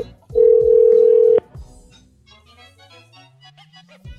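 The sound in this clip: Telephone tone as a call is dialed: one loud, steady, even tone lasting about a second, followed by quieter, low line sounds.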